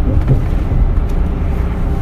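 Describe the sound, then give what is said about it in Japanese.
A car driving along a bypass road makes a steady, loud, low rumble of engine and tyres on the road, mixed with wind buffeting the microphone and no distinct events. “このようにバイパス走ってるんで”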